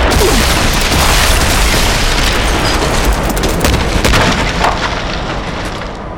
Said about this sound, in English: the man's armor blew apart